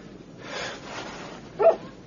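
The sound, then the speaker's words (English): A poodle lets out one short, sharp bark near the end, preceded by a stretch of soft, breathy background noise. “Since when do you have a dog? It's Negrita, Evita's poodle.”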